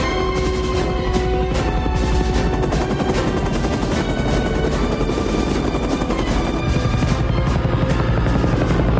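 A helicopter's rotor beats out a loud, rapid, rhythmic chop that runs unbroken throughout, dense and harsh over a roaring engine.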